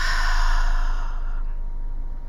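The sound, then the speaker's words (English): A long breath exhaled through the mouth, an airy, breathy whoosh that holds steady and then slowly fades over about two seconds, with no voice. “Inhale through the nose. Hold it. Exhale out through the mouth.”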